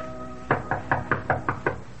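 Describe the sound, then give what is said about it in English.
Seven quick, evenly spaced raps as a hunchback knocks on a gypsy girl's chamber door, a steady run of crisp knocks with nothing else heard. “And as the hunchback knocked on the gypsy girl's chamber door, he resolved to spare her the pain of this knowledge.”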